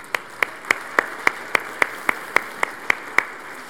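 Clapping at a church service welcoming new members, a steady run of evenly spaced, crisp claps at a brisk, regular pace and moderate loudness.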